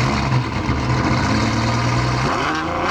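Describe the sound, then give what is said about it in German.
A Ferrari combustion engine revs with a loud, steady, rough drone, then its pitch climbs sharply near the end. “Normalerweise klingt ein Ferrari ja so.”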